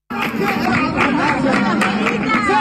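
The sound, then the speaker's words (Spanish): A crowd gathered at the doors of the Peña de la Bulería in Jerez: dense, overlapping chatter of many voices, lively and continuous throughout. “Y este es el sonido de anoche a las puertas de la Peña de la Bulería, aquí en Jerez.”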